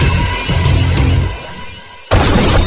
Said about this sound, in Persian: جان وقتی میبینه روی ماشین کنترلی نداره و ویگو داره ماشین رو به پرتگاه هل میده، از شیشه عقب ماشین خودشو میندازه بیرون.